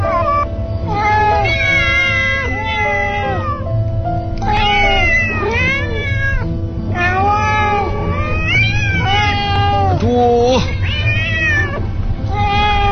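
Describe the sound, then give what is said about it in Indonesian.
Many cats meow and caterwaul outside a window in a yard. Their drawn-out, wailing cries overlap and rise and fall, loud and nearly continuous throughout. “Aku lihat keluar jendela. Astaga, kucing-kucing itu banyak sekali,”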